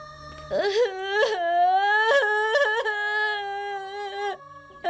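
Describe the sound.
A child cries in a drawn-out, wavering wail, loud and tonal, broken by several sobbing catches over about four seconds.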